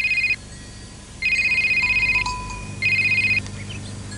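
A phone ringtone sounds in three warbling electronic bursts. The first is cut short and the next two are longer, separated by brief quiet gaps; each is high, trilling and clear.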